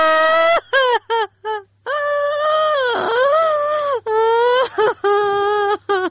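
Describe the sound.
A girl crying in long, high, wavering wails broken by short sobs and catches of breath, loud and sustained, over a faint steady low hum.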